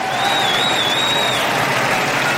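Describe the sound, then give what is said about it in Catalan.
Applause from Colla Vella supporters in Plaça del Blat at a castells (human tower) display, a dense, steady clapping wash that holds at an even level for the whole stretch. “Aplaudiments de tota la gent de la Vella, també dels aficionats que s'han apropat avui aquí a la plaça del Blat i a l'altre cantó de la plaça”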